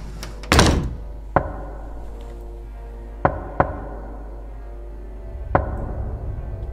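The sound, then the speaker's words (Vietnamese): Knocking on a door from outside: five sharp, hollow knocks land at irregular intervals, a single blow and then pairs spread apart, over a quiet low hum with no voices. “Sau 10 phút có tiếng gõ cửa ở bên ngoài, vang lên giọng của cậu Út.”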